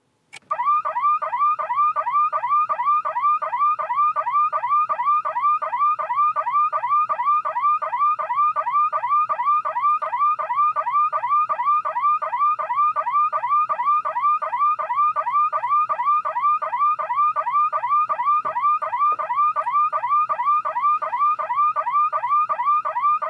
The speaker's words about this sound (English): really this whole video deserves a woo-woo alarm. So in that spirit,